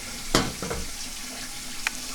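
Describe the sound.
Water runs into a kettle for tea in a kitchen: a soft, steady hiss with a couple of brief clicks, faint and without talk.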